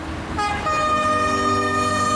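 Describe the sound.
A train horn blares on a railway line as a sustained, multi-tone chord that starts a moment in and holds loudly over a low rumbling of rolling stock.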